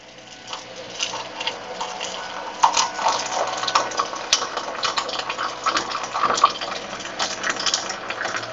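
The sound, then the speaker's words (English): Boiled water poured into a cup holding a plain tea bag: a continuous splashing, gurgling stream that wavers in level but runs steadily for about eight seconds, with no voices. “that's bog standard boiled water going into a cup that has a bog standard tea bag in it.”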